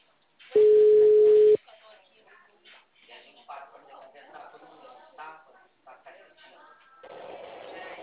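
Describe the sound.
A telephone tone after a dropped call: one steady, clear tone lasts about a second, then a voice talks over the phone line.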